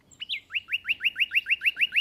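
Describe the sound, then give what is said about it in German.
Male nightingale song from a hedge on a spring night: after a brief opening note, a fast, even train of identical bright, rising chirps repeats steadily, clear and alone without voices. “In der Hecke geben die Nachtigallenmännchen alles im Sangeswettstreit um die Weibchen.”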